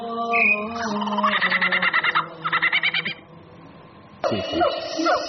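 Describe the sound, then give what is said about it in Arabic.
Small birds chirping, with bright tonal calls and quick trilled bursts in a fast repeating rhythm, followed by a sharper squawking call near the end; no talk. “دي زقزقة العصافير.”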